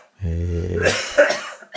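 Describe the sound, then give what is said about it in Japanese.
A person coughs in a short, rough fit during a casual rugby chat, a voiced throaty sound breaking into harsh bursts of breathy coughing. “さあ、だいぶ咳き込んできたところで”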